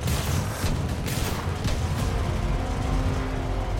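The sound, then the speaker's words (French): A Ford V8 engine roaring as the car bursts out of a garage and rams a police car during a shootout: a loud, dense, continuous roar with heavy low rumble, sustained at constant strength. “La Ford sort du garage et percute la voiture des flics garée en travers de l'allée. Le V8 de la Ford rugit.”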